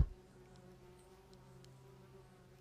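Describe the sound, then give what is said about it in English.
Insects buzz outdoors in nature in Washington. A faint, continuous low drone runs throughout, with a few brief, soft high chirps and no voices. “So what I hear in nature are birds, maybe some buzzing insects,”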